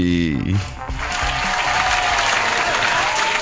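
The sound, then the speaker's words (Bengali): Loud applause from an audience at a quiz, dense clapping that swells right after a brief voice at the start and then continues strong and even to the end. “তাই যারা যারা Jasper and জিঙ্কস বলেছো তাদের জন্য একটা জোরে হাততালি।”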